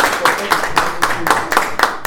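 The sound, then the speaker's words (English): Audience clapping for a speaker after a climate change discussion: a steady run of sharp, evenly spaced claps through the whole two seconds. “Clap for Ella.”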